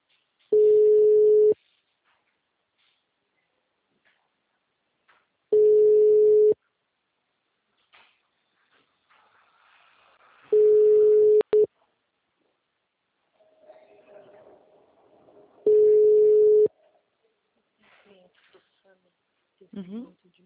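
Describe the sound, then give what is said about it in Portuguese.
Telephone ringback tones while placing a call: four long, steady, mid-pitched tone bursts repeat at even intervals with silent gaps between, and faint scattered sounds and brief voice-like bits appear between the later rings. “deixa eu só fazer uma ligação aqui”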